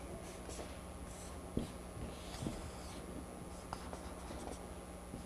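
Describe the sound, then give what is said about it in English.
Faint scratchy strokes of a pen drawing a picture, soft and steady, with a few light taps between the lines. “You just love it when we draw pictures, don't you? Okay, there's Yeshua, and we'll draw some of his guys”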